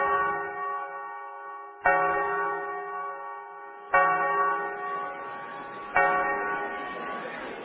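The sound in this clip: A clock strikes the half hour at twelve thirty with four resonant bell tones, each evenly spaced about two seconds apart and slowly ringing out before the next.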